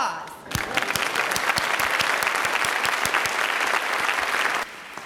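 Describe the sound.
Church audience applauding: a brief hush breaks into dense, steady clapping from many hands that holds evenly for about four seconds, then drops off sharply.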